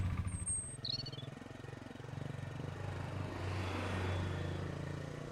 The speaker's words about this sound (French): La jeune fille enclenche le moteur et les voilà partis à vive allure.